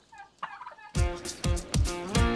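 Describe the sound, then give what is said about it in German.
Turkeys gobbling: after a softer opening call, several loud, rattling gobbles repeat in quick succession, each a dense burst of rough, bubbling tone. “Die Puten haben noch einen Lieblingsplatz zum Eierlegen, der dafür aber überhaupt nicht geeignet ist.”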